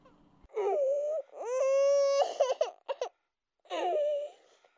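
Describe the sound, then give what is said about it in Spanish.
A child crying, heard as a few drawn-out, wavering wails with short breaks between them, loud and with no talk over them. “en alguna de esas habitaciones o balcones hay un niño que llora.”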